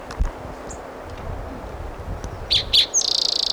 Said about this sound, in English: That was a Virginia Warbler singing.